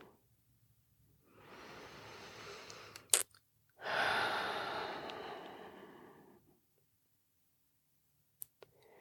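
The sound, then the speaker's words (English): Deep, slow breathing during a seated guided meditation: two long, soft, airy breaths, each lasting a couple of seconds. A brief click comes between them and a few faint ticks follow in the quiet. “let's just take a moment just to sit and get comfortable and take a few deep breaths.”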